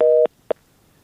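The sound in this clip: A telephone busy signal after a caller's line drops: a steady mid-pitched electronic tone lasting about a quarter second, then two brief blips of the same tone, with silence after.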